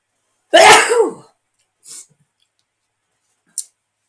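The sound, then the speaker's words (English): A sneeze bursts out once, loud and breathy, followed by two faint, very short breaths or sniffs. “I'm going to sneeze.”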